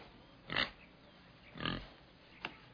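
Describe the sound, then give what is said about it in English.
A pig grunts three times, low snorting oinks spaced about a second apart, the last one short, all faint over a steady background hiss. “I brought you this pig.”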